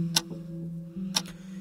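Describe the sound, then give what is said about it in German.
A clockwork device ticks after being started. Crisp clicks come at a slow, steady pace about a second apart, each followed by a softer secondary tick, over a low constant hum. “Sie geht. Sie tickt.”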